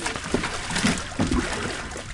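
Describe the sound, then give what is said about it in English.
A baby shark about three feet long splashes around as it is placed in a cooler on a boat deck in a harbor: irregular, continuous sloshing with several sharper splashes. “The morning sun glistens on the harbor as Noddick and Jones reel in a baby shark. It splashes around as they place it inside a cooler on deck.”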